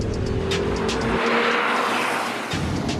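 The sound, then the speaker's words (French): A car drifting with squealing tyres gives a loud, continuous rush of engine and tyre noise. It swells through the middle and eases toward the end, with no voices. “Je t'avais dit qu'on ferait un peu de drift.”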